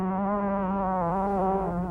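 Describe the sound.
A fly buzzes in one continuous, steady drone with a rich, nasal tone, its pitch wavering slightly as it hovers.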